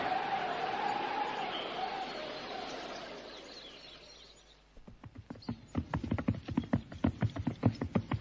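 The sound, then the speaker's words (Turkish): Horse hooves with a rider approach as many rhythmic clip-clops that start midway and grow louder, after an airy drone that fades away. “İşte at üstünde biri bize doğru yaklaşıyor.”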